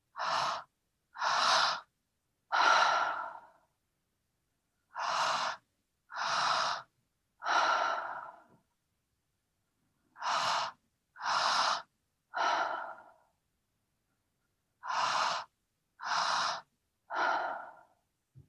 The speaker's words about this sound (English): And we're going to breathe into our belly and then into our chest and then exhale. So we're going to breathe in for longer than we breathe out. So you can follow me.